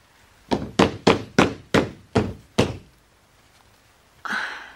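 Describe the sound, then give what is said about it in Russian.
Pounding on a door, seven heavy, booming thuds in a steady, insistent rhythm. “Придется открыть. Иначе они выломают дверь.”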